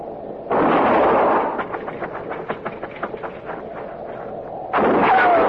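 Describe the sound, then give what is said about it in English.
Gunfire in a shootout: a loud, noisy blast with a lingering tail, then a run of sharper cracks and rattles, and another heavy blast near the end. No one speaks. “I'm gonna fire and roll away, maybe draw a shot.”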